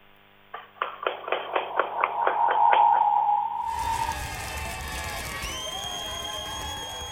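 Audience applause, beginning as steady rhythmic clapping in even beats that builds, then giving way to a stretch of crowd cheering and noise.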